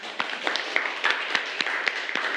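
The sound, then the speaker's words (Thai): Schoolchildren clap for a classmate in a classroom, giving scattered, uneven handclaps that never build into a dense roll and continue steadily throughout. “เก่งมากปรบมือให้เพื่อนหน่อย”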